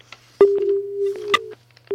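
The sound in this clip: Telephone busy tone after a caller's call is cut off: a steady, low, pure tone with clicks in it. The tone stops, then starts again.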